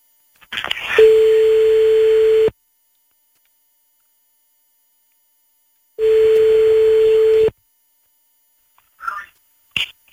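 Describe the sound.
Telephone ringback tone as an outgoing call is placed: two long, steady buzzing tones of about one and a half seconds each, separated by silence, then a few faint, brief sounds near the end.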